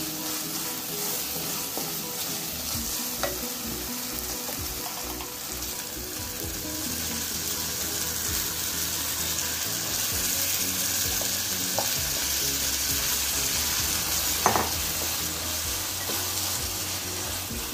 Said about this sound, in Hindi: मसाले ने तेल छोड़ दिया है अब इसमें मटन डाल दें